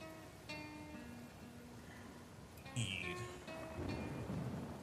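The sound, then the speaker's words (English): A thunderstorm brings steady rain and low, rumbling thunder. The rain makes a faint, continuous wash, and deeper rolls of thunder swell through it. “bracing himself for the quite literal storm that is approaching”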